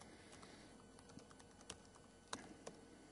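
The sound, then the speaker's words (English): Typing a password on a computer keyboard while setting up a login: light, irregular key clicks, soft and steady, with no talk. “Type a default password.”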